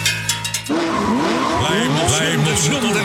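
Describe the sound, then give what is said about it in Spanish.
A World Rally Championship car engine roars loudly in Chile, its pitch sweeping up and down repeatedly as the revs climb and drop, with a brief tonal sound just before it. “La emoción del motor rugiendo.”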